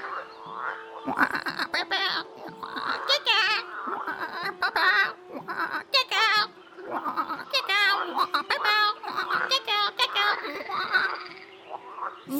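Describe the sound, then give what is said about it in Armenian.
Frogs croaking along a riverbank, many rasping, throaty croaks in an uneven stream with a voice speaking over them. “Մի օր էլ, գետի ափովն անց գնալիս լսում է, որ գորտերը կրկռում են։”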